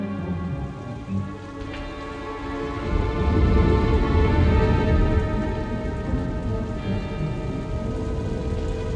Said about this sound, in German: Es regnet.